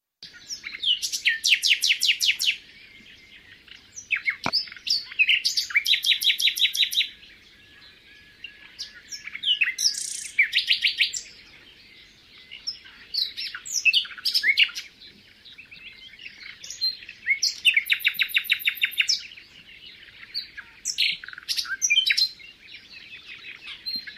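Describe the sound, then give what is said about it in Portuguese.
A nightingale sings a richly varied song in many separate bursts of high, rapid phrases and trills, each phrase different from the one before, broken by short pauses. “É um verdadeiro cantor e que ainda, além de ter um canto extremamente variado, ainda tem um atrativo adicional. É que o rouxinol canta de dia e de noite.”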